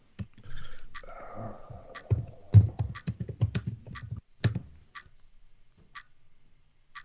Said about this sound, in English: I just need a second to type.